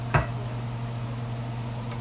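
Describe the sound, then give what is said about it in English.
A bowl is set down with a single short clunk near the start. Afterwards only a steady low hum remains. “So, here's a bowl.”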